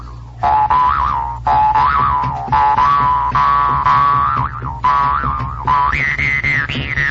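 A recorded song plays loudly and without a break, a wavering, sliding lead melody riding over a steady low accompaniment, marked by regular phrase breaks.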